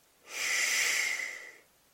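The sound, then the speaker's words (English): A single labored inhalation through a congested nose, a breathy, hissing draw of air that swells, holds for over a second and fades, with no talk. “Like, look, when I breathe in, watch. I can hardly breathe in.”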